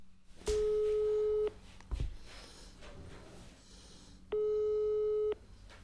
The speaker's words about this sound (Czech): A teď mu volám.